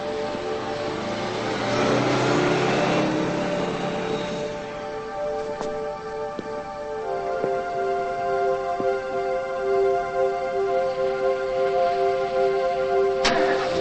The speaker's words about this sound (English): starts his car and slowly drives over to her.